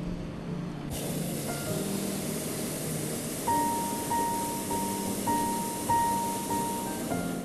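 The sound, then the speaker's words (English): Hot air balloon burner firing above a city, a loud, steady roaring hiss that bursts in abruptly and holds, with several short, high tonal beeps repeating over it. “We hear the sound of the burner as it takes us up higher into the sky, but other than that, it's just perfectly silent up here.”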